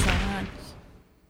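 A single loud gunshot blast cracks out and trails off into a fading tail within about a second, heard alone.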